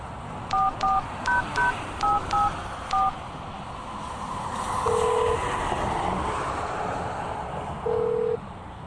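Touch-tone telephone keypad dialing a number: seven quick, evenly spaced dual-tone beeps, followed by two longer steady tones.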